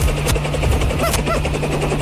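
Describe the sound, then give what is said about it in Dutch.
A huge helicopter lands in a parking lot, its rotors making a loud, steady thrumming roar with a low droning hum that holds throughout without a break. “Wat is dit? En dan landt hij een enorme helikopter.”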